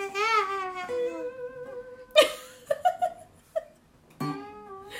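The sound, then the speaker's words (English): A voice imitates a baby's wailing cry, with a long, wavering, high-pitched wail at the start, followed by a few short, sharp vocal bursts and another wail near the end. “And we can tell which kid had the most distinct cry. Like a wailing sound, like,”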